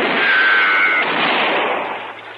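A gunshot in a radio western drama hits loudly and rolls into a broad, noisy roar that slowly fades over about two seconds, with a thin whine running through the first second.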